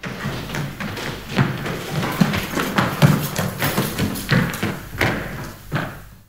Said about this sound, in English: the track begins with a really artistic recreation of a stomp performance.